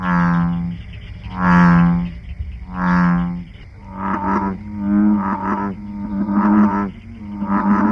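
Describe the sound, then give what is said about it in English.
Bullfrog calling: three long, deep, resonant croaks with even gaps, followed by a run of shorter, choppier throaty notes, loud and alone without voices. “Bullfrog.”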